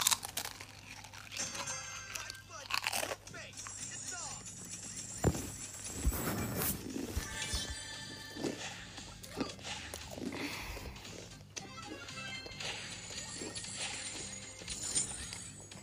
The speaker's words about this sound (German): Ich esse einen Chip. Wisst ihr was? Ich rede einfach nicht, während ich einen Chip esse, weil. Okay, ich esse zwei.